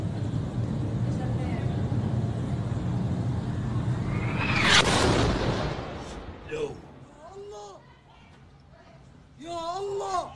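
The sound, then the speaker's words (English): An Israeli airstrike hits a hospital in Gaza in news footage: a steady roaring rumble swells into one sharp, loud blast near the middle, then fades as voices speak. “The moment the hospital in Gaza was hit by Israel airstrike. Here's this video.”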